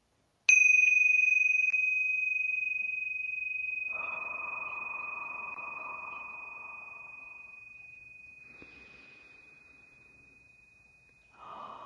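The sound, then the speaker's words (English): Tingsha bells are struck once, giving a bright, pure, high ring that sustains and slowly fades over about eleven seconds, with breathing audible beneath the ringing. “So I'm going to ring the tincture bells to clear out any lower vibrations and create a pure sacred space”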